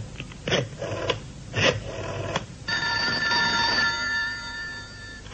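A telephone rings in a few bright, buzzy bursts, then gives way to a steady, sustained electronic tone over a faint background. No voices are heard.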